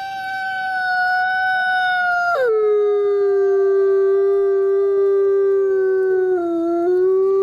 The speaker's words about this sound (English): There are significantly more descriptions for the howler's scream than there are for its physical description. It is most commonly compared to a wolf's howl,